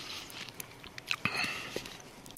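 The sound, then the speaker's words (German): Moist lip smacks and mouth clicks as lips part against dried saliva: several soft, sharp clicks scattered through a quiet, breathy hush. “Ja, das ist dieser getrocknete Speichel zwischen den Lippen”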